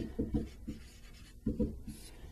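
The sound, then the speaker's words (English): Faint scratching of a pen writing out the given quantities for a related rates problem, a few short strokes with brief pauses between them and no voices. “Now we did this in the problem already, but I want to write it all out here.”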